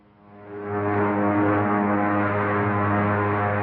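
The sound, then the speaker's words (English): A patrol spaceship comes in for a landing in a science-fiction film: a deep, humming engine drone that swells up over the first second, then holds steady and loud with a rich, buzzing tone. “Patrol ship coming in for a landing, sir.”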